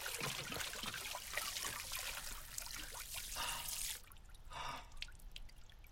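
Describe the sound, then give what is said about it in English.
Water drips and trickles as a man fills his bottle with murky water and drinks, spilling it down his chin: a steady, bright trickle with scattered drips that thins and quietens over the last two seconds. “He fills his bottle with the murky water and drinks greedily. Water tips out down his chin, all over his stained front.”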